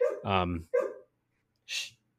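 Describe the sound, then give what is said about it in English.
Dogs bark in the background with a few short, yelping barks close together. After a brief pause, a single breathy huff follows. “You can hear my dogs in the background.”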